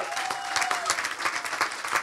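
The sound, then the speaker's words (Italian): Applause for the drummer as he is introduced on stage at a live concert: a short burst of steady, moderately loud clapping from the crowd. “Paolo Soffientini alla batteria, un applauso.”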